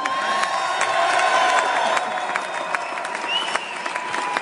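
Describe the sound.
A crowd cheers a speaker's arrival with loud applause, whoops and shouts, sustained and lively throughout, with voices mixed into the din.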